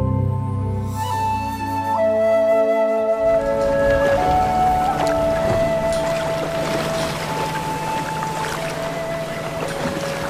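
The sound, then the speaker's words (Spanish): A sailing ship at sea in strong wind, heard as a steady, dense rush of wind and water with long creaking tones running through it and no voices. “¡Ajusten bien esa vela! ¡El viento está muy fuerte!”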